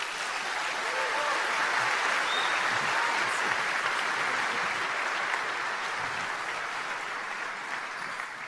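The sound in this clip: Sustained audience applause welcomes a guest at a Harvest event. Many hands clap in a dense, even wash that stays loud from start to finish.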